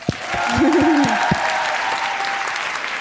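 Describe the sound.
An audience bursts into steady applause, with a single wavering vocal whoop rising briefly above the clapping near the start.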